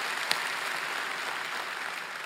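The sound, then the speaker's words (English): A church audience at a Mother's Day service applauding: steady, even clapping that stays fairly faint throughout, with no talk over it. “Could y'all put your hands together with me to welcome all of those that are watching online?”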